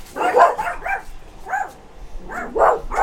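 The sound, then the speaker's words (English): A dog barking at neighborhood dogs: many sharp, fairly loud barks in irregular bursts with brief gaps between them. “we now have a dog with us because they're barking at the neighborhood dogs.”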